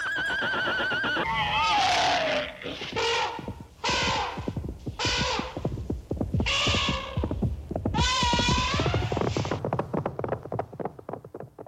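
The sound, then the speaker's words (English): Horses neigh in a series of loud whinnies with wavering, quivering pitch, separated by short pauses and continuing through the whole stretch. “Give the nice horsies some sugar cubes.”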